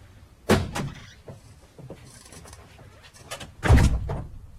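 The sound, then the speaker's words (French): A knock at a door in a French dramatisation of Proust, heard as heavy wooden thuds in two short bursts separated by a pause, loud against a quiet background. “C'est à la porte qu'on frappe, et une voix distincte ne tarde pas à succéder au coup.”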